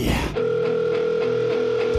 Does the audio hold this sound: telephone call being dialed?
yes